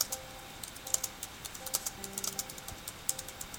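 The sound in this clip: Someone types a phrase on a computer keyboard, producing many light, irregular key clicks that stay faint throughout.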